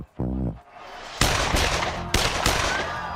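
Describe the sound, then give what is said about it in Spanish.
Several gunshots fired into a crowd of faithful during the pope's 1981 procession. Two sharp, loud blasts each trail into a sustained roar of noise, after a short low tone at the start. “el Papa Juan Pablo II pasaba entre una multitud de fieles cuando se escuchó el tronar de varios disparos”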